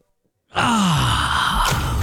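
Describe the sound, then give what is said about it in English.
Relaxation breathing: after a moment of silence, one long audible breath with a voiced, groan-like tone that slides downward in pitch, loud and sustained to the end. “I'm just preparing myself, my breathing, my relaxation breathing”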